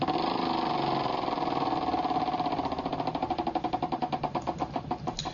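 Rapid clicking of a spinning prize wheel: a dense, steady run of ticks that gradually slows, the clicks spreading farther apart toward the end, with no talk over it.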